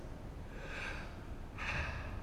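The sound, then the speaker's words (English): A person breathes in and then out to imitate the Hebrew name of God. Two soft, airy breaths are separated by a short pause, and the second breath is louder and fuller. “Like breathing in and breathing out.”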